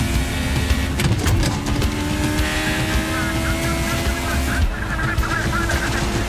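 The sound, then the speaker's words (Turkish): Engine of a McLaren M23 Formula 1 race car at racing speed late in a race, a continuous loud whine with sliding harmonic tones and steady loudness throughout. “McLaren sınırlarda geziniyor.”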